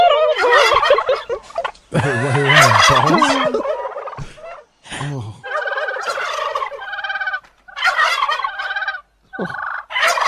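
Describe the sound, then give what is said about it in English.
A person imitates a turkey gobbling with their voice, producing a series of loud, warbling gobble bursts separated by brief pauses, some long and some short, with no other sound between them. “Were you like gobble gobble? Yes. Well, I did it more like that.”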